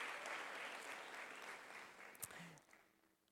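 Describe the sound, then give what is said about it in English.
Church audience applauding people being baptized during a sermon, a dense wash of clapping that holds steady and then gradually thins and fades over about three seconds. “congratulations to all those who are being baptized. Why don't we give it a hand to them today?”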